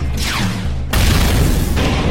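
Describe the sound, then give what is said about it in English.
Rocket missile fired by a cyber demon in a fight with demons: a falling whoosh cuts into a loud, heavy boom, followed by a sustained rumbling roar. “He's going to kill us, said the demons. Said the cyber demon, and he fired the rocket missiles.”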